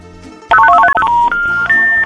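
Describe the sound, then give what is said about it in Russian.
Telephone keypad tones ring out as a call is dialed: a rapid run of short, bright beeps, then two longer steady tones, the second higher than the first. “Вот кто-то дозвонился.”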